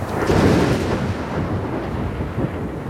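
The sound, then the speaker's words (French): Thunder from a lightning strike about 1.5 km away in front of a peak: a loud, low rolling rumble that swells in the first second, then rumbles on more softly to the end. “Il y a eu 4 secondes entre l'éclair et le tonnerre”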